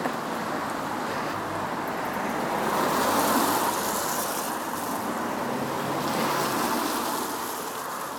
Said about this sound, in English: So right now I'm literally walking in the middle of my village. I'm walking past my hairdressers.